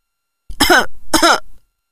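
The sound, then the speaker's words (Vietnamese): An old man clears his throat and coughs into his fist: two rough, raspy bursts close together, fairly loud, with no talk around them. “Ông cụ húng hắng ho vào nắm tay.”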